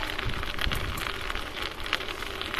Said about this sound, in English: it's actually it's kind of clear right now, but man, it's super windy. I hope the audio isn't horrible on this one